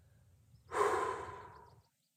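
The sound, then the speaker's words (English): A person breathes out once in a soft, airy exhale that swells quickly and then tapers away to silence, alone and fairly quiet. “So intimate that I'm breathing in the exhale of the plant life around me. And when I breathe out,”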